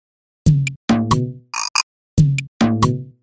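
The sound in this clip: Frog croaks ring out in a children's English chant, loud and alone: throaty, buzzy croaks arrive in two matching phrases, separated by a short pair of brighter, higher chirps.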